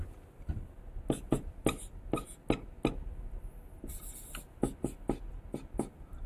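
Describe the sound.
Writing on a board while a harmonic series is worked out in a lecture: many short, faint scratchy strokes in an irregular rhythm, some bursts closely grouped and others spaced apart.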